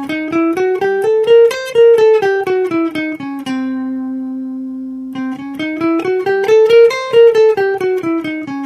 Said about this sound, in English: we're using something called the half-whole scale. And this means that the scale is composed of alternating half-steps and whole steps. We're in the key of C, and it sounds like this.